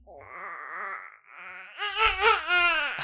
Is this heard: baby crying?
yes